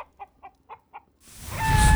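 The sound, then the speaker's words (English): Fictional Eustropian fire chicken clucks five short, evenly spaced times, then a loud rushing roar swells up and continues to the end. “The Eustropian fire chicken. It's quite the delicacy.”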